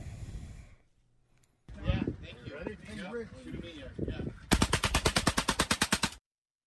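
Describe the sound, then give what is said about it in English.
Rapid fire from a fully automatic shotgun fed by a 20-round box magazine: a fast, even burst of many loud, sharp shots follows a stretch of talking. “That's actually a fully automatic shotgun. And some crazy guy appeared a few moments later with a massive magazine. I think it was like a 20-round magazine. And it worked.”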